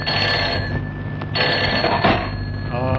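A telephone rings steadily for the full three seconds: a bright, continuous electronic trilling tone, loud and unbroken, with no voices over it.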